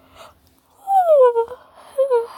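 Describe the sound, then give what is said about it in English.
A vocal yawn: a drawn-out, voiced sound that slides down in pitch, followed by a shorter second falling sound. It is loud and heard on its own. “What was that? It was a yawn.”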